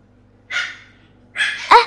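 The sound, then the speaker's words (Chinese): A small village dog barks in two rough, breathy bursts separated by a short pause, with the second bark sharper and louder. “可能是邻居家养的小土狗”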